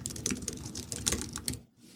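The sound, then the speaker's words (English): Computer keyboard typing as a prompt is entered into an AI writing tool: a quick, uneven run of soft key clicks that stops just before the end. “And I'm going to just type in being a toy inventor.”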